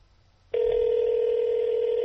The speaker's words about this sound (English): You can tell he's on the line with someone else because it's beeping.